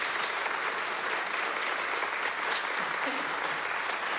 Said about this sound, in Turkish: Bu kıymetli alkışlar devam etsin lütfen